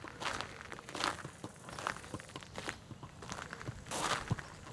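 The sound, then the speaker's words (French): Footsteps walking through a cemetery, soft and quiet, a steady run of many light scuffing steps with no voices. “On marche dans le cimetière de la Coulonche.”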